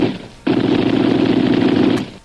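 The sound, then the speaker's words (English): Gunfire bursts out as a loud, continuous rapid-fire volley lasting about a second and a half, a dense roar of shots aimed over someone's head during a chase. “He's firing over the head”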